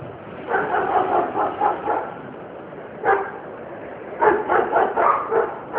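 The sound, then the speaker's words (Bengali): A stray street dog barking repeatedly: many sharp barks in quick bursts, with a brief pause before a final run of yaps. “আর ওইটা রাস্তা কুকুর।”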